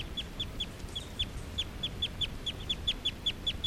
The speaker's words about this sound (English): This is a call of a male who's right next to bird 378.